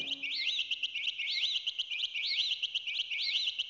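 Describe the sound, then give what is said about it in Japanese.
Electronic chiptune bleeping, a high warbling synth figure that repeats in a steady, bouncy rhythm, fairly faint and alone. “このピコピコ音、 心地いいわ。”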